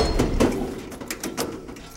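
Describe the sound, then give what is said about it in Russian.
An iron door closes in a dark basement corridor, giving a few heavy metallic clanks and scrapes over a low rumble, each knock sharp and broad before the sound settles. “Темный подвальный коридор. Давай, Барсов. Закрывается железная дверь.”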